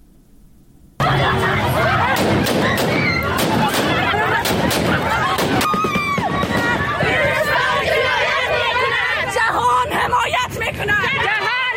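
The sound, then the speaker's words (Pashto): A crowd at a women's protest in Kabul bursts in after a second of near quiet: a dense, loud babble of many voices with shrill cries that continues without a break. “دا په کابل کې د خزو هغه اعتراض و چې طالبانو په هوایي ډزو تیتو پرک کړ.”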